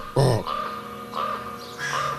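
A raven gives three deep, rough, croaking calls overhead. The first call is the loudest and is followed by two fainter ones, spaced about a second apart.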